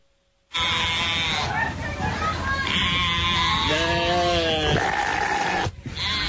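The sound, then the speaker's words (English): Sheep bleat loudly in a few long, strained, wavering calls, one after another, with an eerie, almost human quality, before stopping abruptly. “It was a zombie sheep, that last one.”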